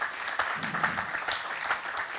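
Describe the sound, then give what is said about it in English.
A church audience claps its hands in a morning service, giving a steady, even patter of many hands at moderate loudness. “Give God a big hand clap if you would this morning.”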